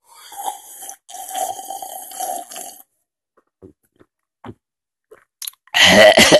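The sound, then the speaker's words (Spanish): Someone chokes while drinking hot coffee: a run of gurgling slurps, a few faint clicks and soft gulps, then a sudden loud, harsh sputtering burst at the end. “Uy, está tan rico que casi me atraganto.”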